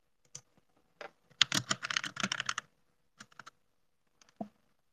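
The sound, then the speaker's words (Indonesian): Typing on a computer keyboard for ASMR: quiet, crisp key clicks, a few scattered taps, then a dense rapid burst of keystrokes, followed by sparse single clicks. “Satu, kita ASMR keyboard. Tanda kedengaran. Nah, itu kedengaran.”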